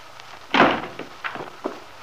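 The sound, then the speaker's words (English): A house door slams shut as a man lets himself in noisily: one loud heavy thud, then a few softer knocks and steps. “letting himself in noisily and slamming the door after him”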